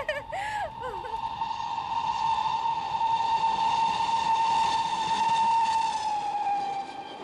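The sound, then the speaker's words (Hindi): A train sounds a long, steady whistle as it enters a tunnel. The whistle holds one pitch for several seconds over a broad, hissing rush of noise, then cuts off near the end. “अरे निर्मला देखो, लो train बोगदा में प्रवेश कर चुकी है।”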